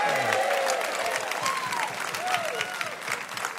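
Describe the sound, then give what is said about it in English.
Audience applause fills a live New Year's evening radio show, a steady, full wash of clapping that stays strong throughout before easing slightly toward the end. “Good evening and Happy New Year to everyone. We have an outstanding audience with us tonight. Give yourselves a big hand.”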